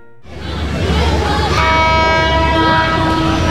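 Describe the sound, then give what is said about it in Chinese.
A train passing with its horn sounding: rumbling wheels and clatter build in the first half second, then a long sustained horn blast joins and holds to the end, loud throughout. “这样的声音在现在的圣信车站已经听不见，好多从前的画面，像是随着列车经过隧道，开进了记忆里。”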